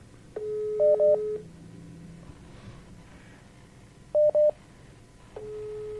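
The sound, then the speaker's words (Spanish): Telephone dialing tones as a call is placed: a steady tone with short paired beeps over it, a second pair of beeps a few seconds later, then the steady tone returns. Fairly quiet, with no talking. “Aguarda un momentito, estamos haciendo una llamada.”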